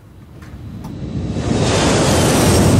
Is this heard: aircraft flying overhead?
yes